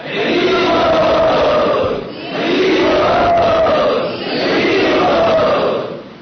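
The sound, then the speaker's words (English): Audience at a devotional gathering calls out "Hari Bol" in unison to welcome a guest, three long, loud swells of massed voices, each rising and fading before the next begins. “Let us all welcome him by saying Hari Bol.”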